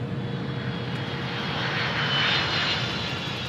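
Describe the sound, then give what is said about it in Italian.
Steady, loud roar of a presidential jet landing at Love Field airport in Dallas, Texas, holding broadly even for the whole stretch and swelling slightly near the middle, with no voices. “dall'aeroporto Lovefield, Dallas, Texas, dove l'Air Force One è atterrato sotto un cielo splendidamente azzurro”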